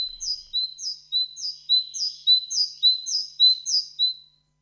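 A great tit sings a song of short, high two-note phrases. The phrases repeat in a steady, quick rhythm, many times over, and the song is clear and alone with no other sounds.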